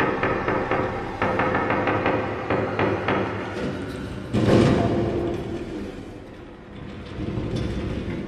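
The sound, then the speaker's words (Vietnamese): Knocking on a door, then loud rattling as the door is yanked: a rapid run of knocks gives way to a heavy thud and rumbling shaking, all over a dense, busy background. “Tiếng gõ cửa lại vang lên, lần này còn kèm theo cả tiếng giật cửa ầm ầm.”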